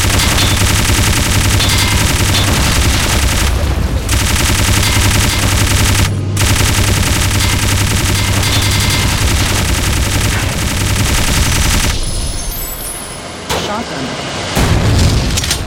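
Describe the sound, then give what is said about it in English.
Machine gun fire in a video game rattles in dense, rapid, loud bursts almost without pause. The firing briefly thins near the end, and speech is mixed in. “Machine gun.”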